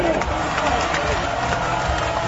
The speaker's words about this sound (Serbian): Pozdravimo još jednom aplauzom, velikim aplauzom vaterpolo reprezentaciju Srbije.